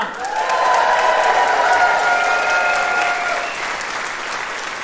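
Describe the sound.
Loud audience applause welcoming guests onto a live show at an agricultural media convention: a swell of dense clapping mixed with some cheering, easing slightly toward the end.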